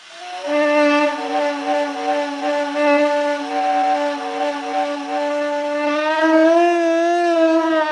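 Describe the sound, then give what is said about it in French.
A reconstructed australopithecus voice, produced with compressed air, holds a sustained buzzy vowel-like tone at a steady low-mid pitch for several seconds, rising slightly near the end, with no other sounds. “Ça, c'était le son d'un australopithèque.”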